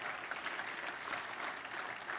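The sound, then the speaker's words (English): A church audience claps together as a morning worship offering, a continuous, fairly soft roar of many hands that stays even throughout without any speech. “Give me one more good clap offering this morning, would you?”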